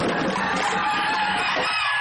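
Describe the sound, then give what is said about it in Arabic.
A rooster crowing loudly throughout, one long strained harmonic call that stays high and bright before trailing off near the end. “يا سلام، ديك ديك بحاله هون.”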